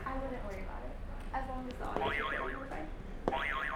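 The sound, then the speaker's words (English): Buzzer sound effect: a bright warbling tone wobbles rapidly up and down, heard twice in the second half, with a held tone earlier and voices alongside. “Can you hit another buzzer for us?”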